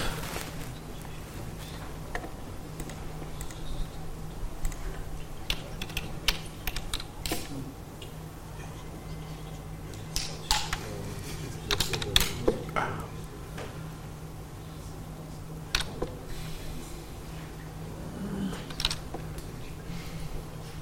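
Computer keyboard typing in scattered bursts of light key clicks, with irregular pauses between runs and a few louder taps in the middle, fairly faint over a low steady hum.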